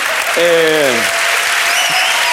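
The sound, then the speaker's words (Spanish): Loud, sustained applause from a crowd giving an ovation, a dense even roar of clapping that holds steady throughout. “Un aplauso. Una buena ovación a Nicolás Maduro delante del logo de Repsol”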